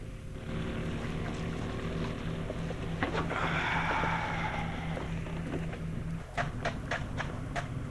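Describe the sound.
Steady low engine drone of a boat on the water, a constant rumbling hum throughout, with a few sharp knocks near the end.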